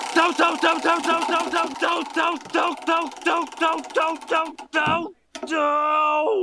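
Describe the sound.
The Wheel of Random being spun to pick a season: a run of ticking clicks that slows as it goes, then a brief dropout and a steady, sustained tone to close.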